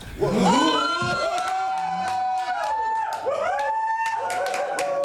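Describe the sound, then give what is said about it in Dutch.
Activist shareholders cheering at a Shell shareholder meeting after their climate proposal won 30% of votes: loud, sustained whoops and shouted voices swell and overlap above a bed of clapping, with the cheering dipping briefly in the middle before rising again. “Dat is natuurlijk een beetje verwarrend, al dat gejuich, terwijl een voorstel niet werd aangenomen.”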